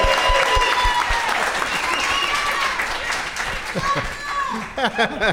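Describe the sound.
Audience applause greets a first-time guest on a talk show, a dense, loud wash of clapping and cheering that fills the whole stretch, with voices cutting in near the end.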